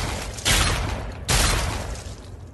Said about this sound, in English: Hate to waste a shotgun shell on roaches, but sometimes I just can't be bothered to pick a new gun.